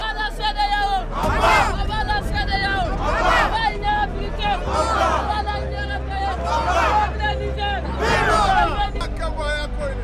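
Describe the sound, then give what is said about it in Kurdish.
Crowd shouting and uproar near Niger's presidential palace during a coup, a dense mass of loud, overlapping voices with repeated surges of yelling over a steady low rumble. “ئەو هاتو هاوار و هەرایی کە دەیبیستن لە نزی کۆشکی سەرۆکایەتی نایجرە”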